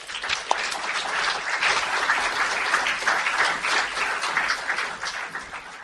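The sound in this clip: Audience applause welcomes a poet to the stage at a writers' event, a dense, steady wash of many hands clapping that holds at an even, fairly loud level throughout without voices.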